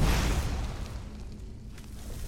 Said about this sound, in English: Whoop, a draugr.